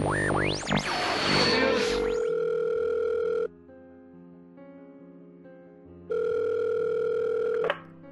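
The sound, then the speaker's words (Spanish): A telephone line tone while calling an office: a noisy, sweeping opening, then two long, steady electronic tones separated by a quieter gap, the second cutting off abruptly. “el retraso de Bayonetta 3 y se le ocurrió llamar a las oficinas de Platinum”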